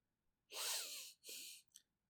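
A deep breath drawn as a breathing demonstration: two long, loud, airy rushes of breath with a brief gap between them, then a short final puff, heard alone without talk.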